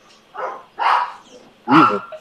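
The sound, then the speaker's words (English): Barking from a neighbor's rambunctious pit bull: three short, rough barks with gaps between them, the last the loudest, with no talk over them. “No, it's my neighbor's dog. It's a pit bull. It's kind of rambunctious.”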